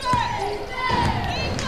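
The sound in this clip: A basketball bounces a few times in a left-handed dribble around a screen during a women's game between the Tigers and the Blue Devils, sharp thuds under continuous commentary.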